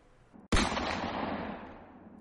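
A single gunshot rings out as a gun's trigger is pulled during an ambush. A sharp, loud crack is followed by a long, fading rumble of echo, and no other sound accompanies it.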